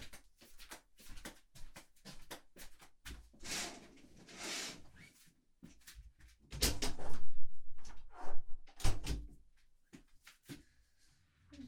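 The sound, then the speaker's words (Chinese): Curtains being drawn open and a window opened: a faint swishing slide followed by louder rattling knocks and clunks of the window, all at low level with quiet gaps between. “我把窗帘拉开，把窗户给你打开啊。”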